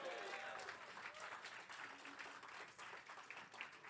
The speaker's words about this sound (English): Welcome to the James Ballantyne VFW Post 246. Let's give him a hand.